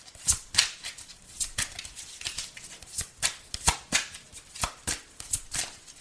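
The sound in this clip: A deck of tarot cards being shuffled: many quick, crisp papery bursts and riffles in an uneven rhythm, fairly loud and heard alone without talking.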